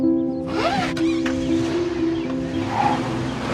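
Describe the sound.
A car seatbelt is pulled out, making a quick zipping rasp of webbing that slides upward over a steady tonal hum inside the car.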